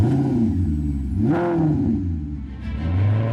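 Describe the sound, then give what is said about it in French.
A Maserati Levante SUV engine with Q4 all-wheel drive gives a steady, loud low drone, and one brief rev near the middle pushes the pitch up before it settles back down. “le SUV selon Maserati. Un son inimitable”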